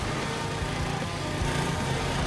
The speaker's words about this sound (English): A car overtakes.